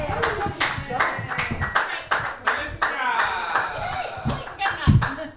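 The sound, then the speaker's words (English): An audience claps at a comedy workshop as the next comedian is welcomed to the stage. Loud, uneven applause keeps going throughout, with voices rising over it. “Your next comedian, very funny lady, put your hands together for Melinda Adams.”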